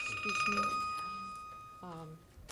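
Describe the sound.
A mobile phone rings during a legislative committee hearing, a steady high electronic tone sustaining under talk for nearly two seconds before cutting off as a voice continues.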